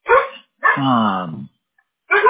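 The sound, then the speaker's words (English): A dog barks a few times, the middle bark drawn out into a longer whining yelp, with short sharp barks before and after and brief silences between. “Excuse my dog.”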